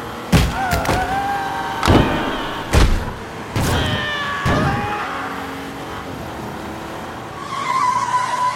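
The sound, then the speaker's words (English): A vintage hot rod with chrome trim and black paint arrives and comes to a halt. Several loud thumps and skidding tire squeals are followed by a high, steady whine, with no voices. “When the thing came to a halt, just inches from where we stood, I could see it clearly. A vintage hot rod, all tricked out in chrome, glistening black paint,”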